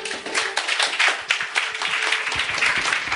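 A church audience claps to acclaim the Lord during a sermon. Many hands clap in a loose, uneven patter at moderate volume, with a few sharper claps standing out.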